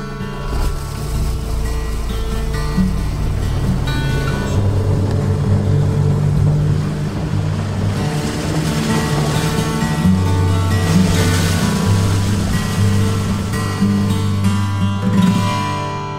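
A fishing boat motors toward deeper water for trout fishing, its engine a loud, steady droning hum with strong low tones that holds unbroken throughout, with no voices.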